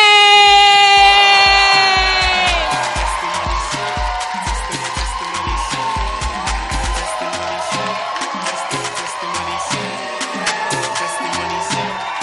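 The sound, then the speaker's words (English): Loud applause and cheering from a church audience welcoming a man up to give a testimony: dense, continuous clapping with excited whoops, strongest at the start and then holding steady. “I want you to please put your hands together as we welcome our brother, Dwayne!”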